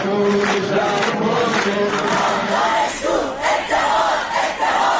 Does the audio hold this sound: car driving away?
no

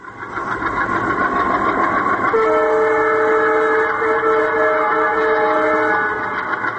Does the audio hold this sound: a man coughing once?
no

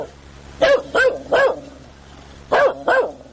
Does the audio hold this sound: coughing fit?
no

